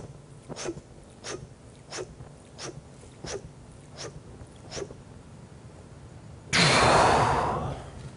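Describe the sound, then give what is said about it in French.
A freediver's slow, deep final inhalation before a dive, heard as a loud, sustained breathy rush in the last seconds. It follows a regular series of short, faint puffs. “Donc on commence par la dernière inspiration.”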